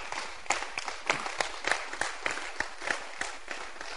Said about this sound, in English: Clap your hands for yourself. You guys are good.